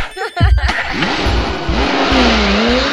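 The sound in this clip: A car engine revs and accelerates, its loud roar climbing in pitch in repeated surges. A brief voice is heard at the start, before the sustained engine drone fills the rest.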